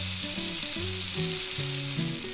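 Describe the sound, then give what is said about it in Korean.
Zucchini coated in flour and egg batter pan-fries in a thin layer of cooking oil in a heated frying pan, giving a steady, even sizzle throughout, with a soft melody underneath. “그리고 달군 프라이팬에 식용유를 얇게 둘러 가볍게 부친다.”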